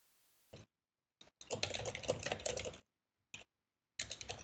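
Quiet typing on a computer keyboard during a call: a couple of isolated taps, then a sustained run of rapid keystrokes, a pause with a single quick tap, and another burst of typing at the end.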